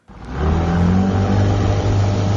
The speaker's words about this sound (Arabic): كان هذا صوت محرك لقارب خشبي، وهو وسيلة التنقل التي يعتمد عليها سكان أهوار العراق